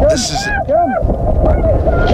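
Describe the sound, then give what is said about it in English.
Roaring wind from a Midwest tornado batters the microphone without pause while a voice calls out over the rushing gusts as a couple hurries toward a storm shelter. “This is a tornado happening, obviously, in the Midwest, but this is a couple that is, racing to get, I guess, into one of those, storm shelters?”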